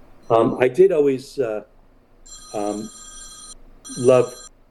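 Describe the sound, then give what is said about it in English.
Telephone ringing in the background during a conversation: two bursts of high, trilling electronic ringing, with a person talking before and between the rings. “excuse me for the phone ringing in the background, I'm sorry.”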